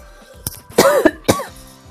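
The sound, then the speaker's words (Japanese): A few coughs from a person whose throat is irritated and burned by spicy food and air conditioning: one short cough, then two louder, harsher bursts, the middle one drawn out with a raspy throat sound, alone without speech. “ちょっとこの咳を止めないとね、一旦止まってたんですけどね。”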